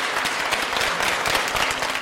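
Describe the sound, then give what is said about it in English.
Applause from a crowd welcoming China's General Secretary and the Political Bureau Standing Committee members at the close of the Party Congress; dense, steady clapping without voices, holding at an even level throughout. “Please join me in a warm applause to welcome the General Secretary and other Political Bureau Standing Committee members.”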